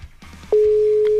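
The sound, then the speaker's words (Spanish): The ringback tone of an outgoing WhatsApp call: after a brief faint rustle, a single steady mid-pitched tone starts abruptly and holds loud and unbroken to the end. “Ahí sí está sonando. Ojalá nos conteste.”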